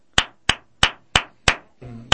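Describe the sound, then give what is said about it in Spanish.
Flamenco palmas: six crisp, sharp hand claps ring out alone. The first five fall at an even, steady pace, and a longer gap comes before the last. “Mira, entonces, comienza a funcionar de esta manera. Las palmas, por ejemplo,”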